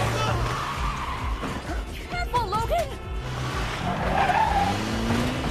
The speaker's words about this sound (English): Look how my man driving to take Jean to the hospital.